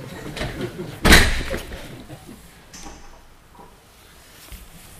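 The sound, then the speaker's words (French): A door closing during a lesson gives a single loud thud about a second in, then only faint low background remains. “Je ferme la porte.”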